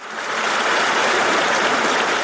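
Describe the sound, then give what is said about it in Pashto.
Steady rushing of a permanent mountain stream flowing down from the Narizi mountains in Tani district, Khost province; a continuous, even wash of water noise with no voices. “دا د خوست ولایت د تڼۍ ولسوالۍ اړوند د نریزي له غرونو بهیدونکو دایمي اوبو دي”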